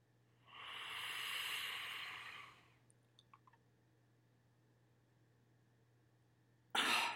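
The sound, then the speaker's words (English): Deep inhalation through a steroid inhaler: a steady, airy hiss lasting about two seconds, followed by a few faint clicks and then a brief, louder burst of breath at the very end. “That deep breath. Yeah. I'm doing another one. I'm using my steroid.”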